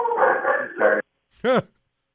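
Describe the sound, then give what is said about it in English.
A dog gives a single short, sharp bark or yelp after a stretch of talking, and the bark stands alone afterward. “sorry, my dogs are quite crazy”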